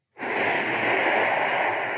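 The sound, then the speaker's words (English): One long, steady breath of air from a person doing a breathing exercise on hands and knees. It begins abruptly and holds at an even, loud, breathy level for about two seconds, with no voice. “and then you have them inhale, exhale.”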